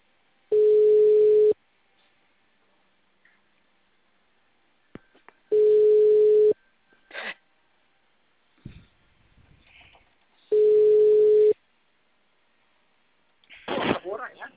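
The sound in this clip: Three long, steady ringback tones sound while an outgoing phone call connects, each lasting about a second and evenly spaced. Small clicks fall between them, and a brief voice answers at the end.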